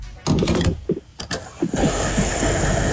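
A game-show pump sound effect opens with a burst of mechanical clanks and clicks, then settles into a steady, loud whirring hum.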